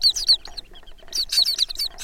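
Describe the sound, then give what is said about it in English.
Turnstone calls along the shore: many quick, high-pitched chirps in rapid bursts, with a short lull in the middle before the chatter picks up again. “True to their name, turnstones can turn stones, and lots of other things along the shore, in search of food.”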